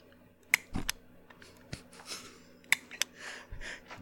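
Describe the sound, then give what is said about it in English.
Clicking of a butane torch lighter: a few sharp, faint clicks spaced irregularly, with quiet soft rustles between them. “it's any butane lighter that this can happen to. So it's not just a torch lighter. But there's this little noise that it makes whenever you click it.”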